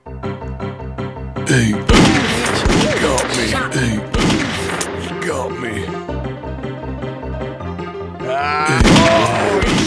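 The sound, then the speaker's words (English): Gunfire during an ambush in the video game Grizzly Gulch: a few sharp, booming shots burst over steady game music, while a person talks excitedly throughout. “I see him! Oh, he shot me! I see him! He got me! Oh, he shot me!”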